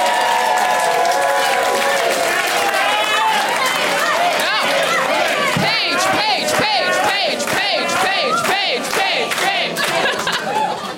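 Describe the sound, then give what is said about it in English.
At a comedy show, the audience chants in unison for an audience member. Loud, rhythmic shouted voices repeat a short phrase, and sharp claps punctuate the chant through its second half. “That might be the first chant for an audience member.”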